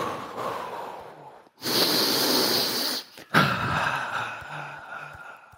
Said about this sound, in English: Another thing I like to do is breathe in deep